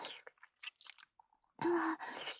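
Wet mouth sounds of a rough, thick tongue licking up and down and side to side: a few short, quiet smacks and slurps, then two longer, louder wet strokes at the end.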